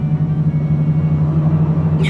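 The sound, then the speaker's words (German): Steady low engine rumble of a car driving along the Quai d'Orsay in Paris toward the Eiffel Tower, a constant droning hum with no clear revving. “Ihr fährt den Quai d'Orsay herunter, Richtung Eiffelturm.”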